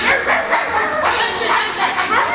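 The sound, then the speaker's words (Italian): Dogs barking back and forth at each other in a film scene: a dense, steady run of overlapping yaps and woofs, fairly loud throughout the whole stretch. “che degenera poi in latrati di cani che abbaiano tra loro.”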